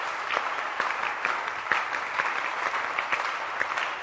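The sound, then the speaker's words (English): A church audience claps on a Sunday morning, a steady, moderately soft patter with regular accented beats roughly every half second, with no voices over it. “clap your hands to God for giving us a cool weather.”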